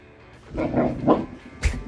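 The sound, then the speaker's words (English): Dog growling while its owner tries to nap, a few low, rough grumbling bursts that swell and fade, the last one sharper and louder. “The dog's like, I want to go for a walk. The dog's having none of it. And he's growling.”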